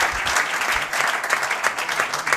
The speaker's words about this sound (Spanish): Aplaude, aplaude, aplaudí, aplaudí.